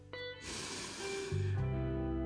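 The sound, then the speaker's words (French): A deep breath drawn in during a guided relaxation exercise: a soft, steady rush of air lasting about a second, set over gentle sustained tones of calm background music that continue once the inhalation ends. “Prenez une profonde inspiration pour vous remplir de ces sensations de tranquillité et de calme.”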